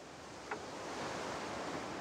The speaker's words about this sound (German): das Meeresrauschen hier im Hintergrund